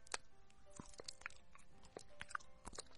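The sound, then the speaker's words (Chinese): Someone bites into and chews fruit close up, with several crisp, moist crunches in an uneven rhythm at a quiet level. “来听我吃水果，来听我吃水果”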